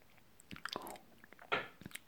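Someone chews food while eating dinner, with a few faint, crisp crunching bites and soft mouth sounds spaced through a quiet background.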